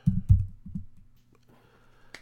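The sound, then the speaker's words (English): Typing on a computer keyboard into a search field: a few muffled, thumpy keystrokes in quick succession at the start, a couple more soon after, then near quiet ending in one sharp click. “I'm going to type into the search field time expired.”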